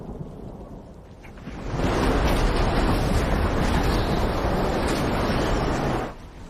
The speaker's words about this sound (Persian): طوفان دوباره شروع شد.